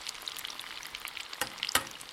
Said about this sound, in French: Si l'huile est à la température parfaite, vous pouvez donc plonger vos navets dans l'huile, délicatement. Donc vous les retirez de la pâte à friture et vous laissez frire 2 ou 3 minutes.